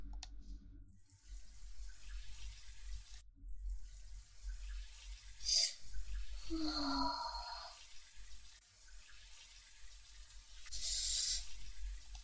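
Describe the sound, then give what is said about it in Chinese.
A person urinating: a steady trickling stream with water-like splashing over a low constant hum, broken by a few brief hissing bursts, with no talk. “终于尿完了，太舒服了。”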